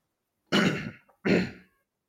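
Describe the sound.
A speaker clears their throat in two harsh, raspy bursts separated by a brief pause, mid-sentence. Both bursts are heard alone, with no talk.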